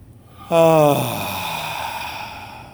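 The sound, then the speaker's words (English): A deep breath let out as a voiced sigh, with one sudden onset whose tone drops and then trails into a long, soft, breathy exhale. “just take a sweeping breath. Let's do one more.”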